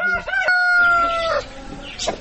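A rooster crows once, loud and drawn out, in a sunny courtyard at a handicraft centre where chickens, dogs and small children run about. A few short clucks and scratchy bird calls follow afterwards.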